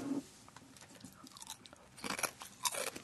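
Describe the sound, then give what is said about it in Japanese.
Crisp crunching as wasabi-flavoured kaki no tane rice crackers are bitten and chewed, faint irregular crackles with a few sharper crunches toward the end, no talk. “じゃあ、わさびの、 柿の種 からどうぞ。 いただきまーす。”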